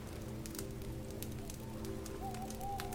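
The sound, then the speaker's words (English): A campfire crackles with sharp, scattered pops over a soft, steady wash of gently lapping waves. “tune back in to the crackling campfire, the gently lapping waves”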